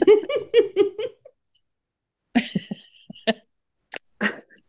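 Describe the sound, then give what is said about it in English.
A sharp nasal snort bursts out after a run of breathy, giggling laughter, followed by a few short scattered huffs and smaller snorts. “Oh, wow. That was a good snort.”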